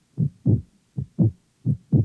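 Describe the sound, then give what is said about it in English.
A heartbeat sound effect from a horror film's fright break: three low, muffled lub-dub pairs of thumps at a steady, moderate pace, each pair separated by a short silence. “Do you hear that sound? It's the sound of a heartbeat. A frightened, terrified heart. Is it beating faster than your heart or slower?”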